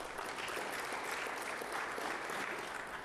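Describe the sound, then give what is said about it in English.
Audience applause at a regional council event honouring schools, a continuous, evenly textured patter of many hands that stays soft and steady from start to finish. “Let's give them a round of applause, please.”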